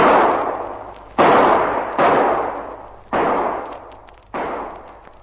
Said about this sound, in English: Now, let me place that fire. I think I can see where they are. Bit far for a revolver, but here goes.